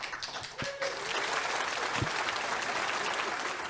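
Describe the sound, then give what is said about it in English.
A round of applause: soft, dense clapping that holds at a fairly quiet, even level for nearly four seconds, with a brief dip near the start. “please, that's everybody, big round of applause in the chat”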